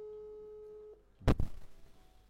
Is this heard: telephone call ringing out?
yes